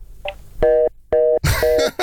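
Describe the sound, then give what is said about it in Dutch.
Telephone tone after the caller hangs up: several short, evenly spaced electronic beeps, the later ones blended with rough, noisy bursts. “Heeft hij opgehangen?”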